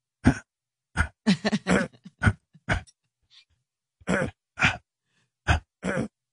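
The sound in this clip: A voice imitates someone's throat clearing with many short, gruff vocal bursts. They come in uneven clusters separated by brief gaps, with a longer pause in the middle.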